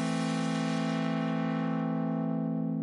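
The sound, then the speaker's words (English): A synthesizer saw and square wave mix runs through a low-pass filter, holding a steady pitch while its bright, gritty upper overtones fade away and leave a duller, rounder body. “And when I apply this low-pass filter now, you will notice how all this grittiness will leave the sound and you're only left with the body of the sound.”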